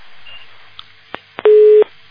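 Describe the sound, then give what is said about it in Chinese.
A telephone busy tone follows a dropped call: a single short, steady beep after a few faint clicks, over a constant hiss on the line. “哦，电话都断了”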